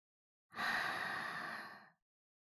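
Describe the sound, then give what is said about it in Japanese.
A person breathes out through the mouth in one long exhalation lasting about a second and a half. The breath is soft and airy, fading toward its end, with no other sound around it. “口から息を吐いて。”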